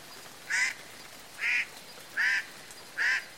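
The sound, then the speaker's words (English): Four harsh, nasal calls of a Hawaiian crow, spaced about a second apart. Each is short and loud with a honking, goose-like tone. “the Hawaiian crow,”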